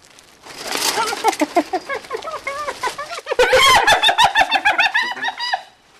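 Spotted hyenas giggling at a zoo: rapid runs of high, chattering whoops in two bursts. The second burst is louder and denser, and it fades out at the end.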